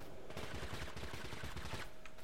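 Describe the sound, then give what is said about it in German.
Gunfire in the video game TABG comes in rapid, dense bursts of shots that run together into a continuous rattling volley at a fairly faint level. “Verdammt, da ballert schon jemand.”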